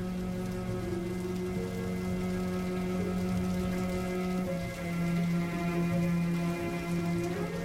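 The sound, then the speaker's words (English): Rain falls outside at night as a constant, even wash of soft patter, with a low steady hum running beneath it throughout. “It's still nighttime and raining outside.”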